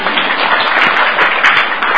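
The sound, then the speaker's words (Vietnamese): Loud, continuous applause from Buddhist followers at a dharma talk, with dense clapping that holds steady throughout. “Giỏi, Phật tử đã giỏi, cho chàng vỗ tay.”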